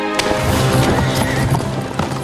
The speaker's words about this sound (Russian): Анна садится на белую лошадь.